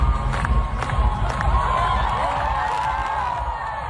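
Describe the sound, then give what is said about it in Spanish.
A crowd cheers and shouts on the Hungarian Parliament steps at a new prime minister's inauguration, urging the new health minister to dance; a loud, continuous roar with whoops rising above it. “El público aquí escuchamos que se lo pedía directamente que bailase, claro.”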